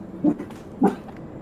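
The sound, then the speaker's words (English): A dog barking outside: two short, low, muffled woofs about half a second apart, each a quick punchy burst over a quiet background. “there's a dog outside that barks and just kind of totally gets you out of the meditation”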